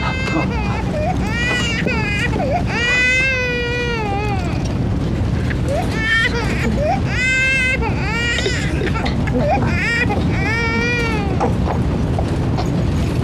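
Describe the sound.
A baby just over one year old crying, loud wavering wails that rise and fall in pitch and come in repeated bouts, with adult voices mixed in at times.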